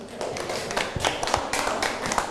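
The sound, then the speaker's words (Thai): Students clap for classmates after a group talk about litter at a temple. A thin, uneven patter of scattered hand claps includes a few sharper slaps. “ปรบมือให้กับเพื่อนครับ”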